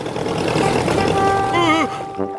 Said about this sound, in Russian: Папа случайно включил мотор.